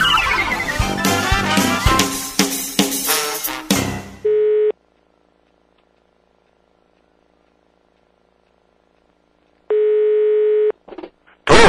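A telephone ringing tone sounds as a call is placed, after a loud burst of music: a short steady buzz, a long silence, then a second longer buzz, followed by a few faint clicks.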